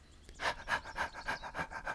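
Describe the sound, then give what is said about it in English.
A person imitates a panting wolf with a steady run of quick, breathy exhalations in an even rhythm. The panting is fairly soft and heard alone. “I feel like I'm some kind of little wolf. And I started to pant,”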